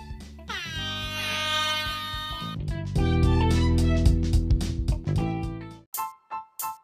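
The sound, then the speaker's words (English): An air horn sound effect blares in one long, loud sustained blast with shifting tone, followed by three short sharp honks at the end. “I almost left without the horn. What kind of shit is that? Let me throw some sound effects here.”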